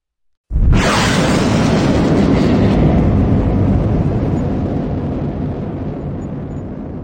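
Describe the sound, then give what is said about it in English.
Thunderous roar of a spaceship blasting off: a sudden, loud, full-bodied rumble that starts abruptly and holds steady, then slowly thins and fades over several seconds, with no voices. “They blasted off into the velvet sky, zooming past comets and asteroids.”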